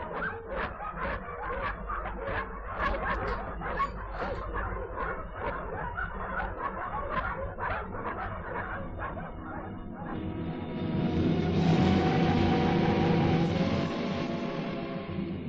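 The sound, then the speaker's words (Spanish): Frantic dog barking and yipping in a fast, relentless stream amid farmyard chaos; near the end a louder, harsher squealing din swells up over the barks and holds to the close. “se confundían los desesperados ladridos del perro con los chillidos de los cerdos y un gran caos de patos y gallinas”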